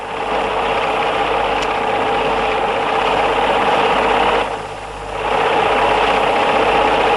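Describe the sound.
A sewing machine stitching cloth makes a steady, continuous whirring drone that dips briefly a little past the midpoint and then resumes at full strength, with no voices.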